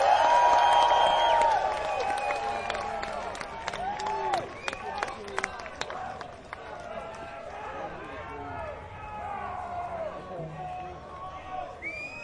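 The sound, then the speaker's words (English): Concert audience applauding and cheering after a band's set, loudest at the start with whistles over the clapping, then dying down to scattered claps as people talk. “We'd like to thank you all for coming out and being such a great audience. Give yourselves a hand.”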